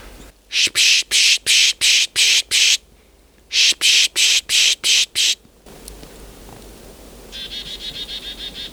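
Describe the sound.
Pishing to draw in chickadees: a person makes soft S-type hissing with a few P sounds, heard as two quick rhythmic series of short breathy bursts separated by a brief pause, followed by quieter low rustling.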